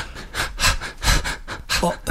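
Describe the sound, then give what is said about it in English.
A voice imitates the rhythmic breathing of a runner, several short, sharp panting puffs in an even pulse, loud and breathy. “So when you're running, you know, you start to get in your rhythm with your feet. Do you ever breathe to a rhythm of your feet, like a...”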